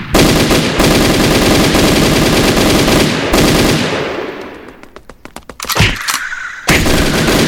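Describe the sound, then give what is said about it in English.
Submachine gun firing in a video game: a long, dense burst of rapid, loud shots that tapers off into scattered single cracks, then a short pause before another sharp burst. “Here's the SMG.”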